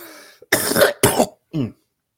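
A man coughs three harsh times in quick succession, after a faint throat sound. The first two coughs are loud and rough, and the third is shorter and more voiced. Silence follows.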